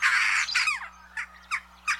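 Jackdaw calling: a longer harsh squawk followed by a few short, clipped chack notes with gaps between them, heard alone.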